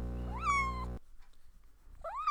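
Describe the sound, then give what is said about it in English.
A domestic cat meows twice as a sound effect: a loud, drawn-out meow that rises and then eases down, and after a short pause a second rising meow that is cut off at the end. “I think maybe we should have a little, maybe cat's meow for that? Let's do a honeybee meow for that one.”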